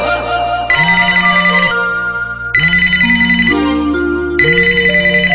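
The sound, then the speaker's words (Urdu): A phone ringtone plays while a call is being placed. The bright, loud electronic melody repeats three times in a steady rhythm, with no voices over it. “Array phone لگا رہا اس کو”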